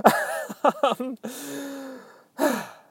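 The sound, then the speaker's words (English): Heavy panting from a person catching their breath: several quick, voiced gasps, then a long drawn-out exhale and one more strong gasp, with no talk. “There we go. Caught my breath.”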